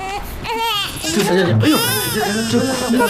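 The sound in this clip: An infant cries loudly at a restaurant meal, a continuous, strained wail with a wavering, high pitch. It barely pauses for breath.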